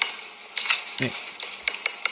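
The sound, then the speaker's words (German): Spoon stirring coffee in a cup: a few light, irregular metallic clinks and taps over a steady soft hiss. “Der hat sich original den Kaffee umrühren lassen.”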